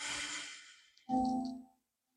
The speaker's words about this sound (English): Now take another deep breath in